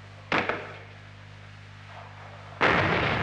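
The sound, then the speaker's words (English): An M40A1 106 millimeter recoilless rifle fires twice, each shot a loud, sharp boom with a short rumbling tail, separated by about two seconds of low background hum. “M40A1 106 millimeter recoilless rifle.”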